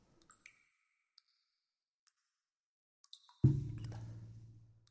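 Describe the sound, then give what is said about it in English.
A heavy dripping water sound effect: a few tiny, faint ticks, then one loud, deep watery plop that rings out and slowly fades. “I opened it up a little bit. I opened it up a lot, okay? That's some fucking heavy drips for you, sir.”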